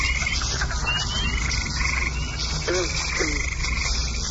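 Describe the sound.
Frogs croaking in a marsh, a dense continuous chorus of repeated chirping croaks with a few lower, deeper calls standing out near the end; no voices.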